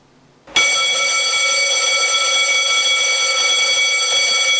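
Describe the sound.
A fire station alarm for the CBRN firefighter crews at a new station in Jilava cuts in abruptly after a moment of quiet, then holds as a loud, continuous, harsh buzzing tone.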